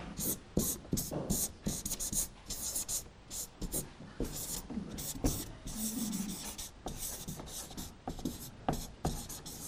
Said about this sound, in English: My writing's getting bigger and easier to read.